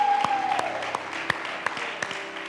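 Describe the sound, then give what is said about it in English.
A church audience applauds during a service, with scattered, fairly faint claps and a few sharper individual hand strikes over a soft, steady murmur. “Come on, let's give God a hand. Come on, give God a shout.”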